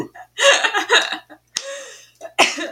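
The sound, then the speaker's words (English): Coughing and sputtering from a person who has choked on food: several harsh, irregular bursts that come in clusters and are separated by short gaps. “He choked out. The one piece got him. He got the one piece combo straight to the back of the throat.”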